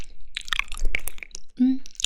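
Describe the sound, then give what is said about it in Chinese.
Crunchy chewing of cold-dressed pig ear salad, heard as a string of short, irregular crisp bites and wet mouth clicks at moderate volume. “对啊，我正吃着呢，在吃凉拌猪耳朵。”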